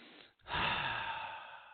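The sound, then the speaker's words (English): A big deep breath, heard as a soft rush of air that swells after a brief pause and holds steady and breathy for over a second, fairly faint. “So take a big deep breath.”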